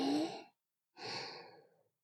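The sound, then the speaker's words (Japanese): Slow, deep breathing in: two soft, airy breaths, a short one and then a longer one that fades out, with no talk. “ゆっくり深呼吸してみようか。吸って、”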